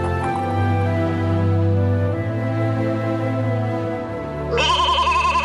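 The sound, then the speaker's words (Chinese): A flock of sheep bleating in a grassy meadow, with long, wavering calls that overlap continuously and a higher, tremulous bleat breaking in near the end. No one talks. “经过一片草地的时候，唐吉诃德听见羊群的叫声”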